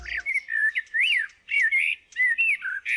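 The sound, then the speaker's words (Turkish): Eurasian blackbird singing clear, fluted whistled phrases, several short warbling bursts separated by brief pauses, with thin higher twitters trailing some notes. “Dinlediğiniz Kara Tavuğun Sesi.”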